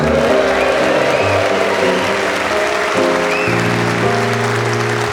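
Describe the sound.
A studio audience claps to welcome the show's scorer to his desk, loud, continuous applause mixed with music playing throughout.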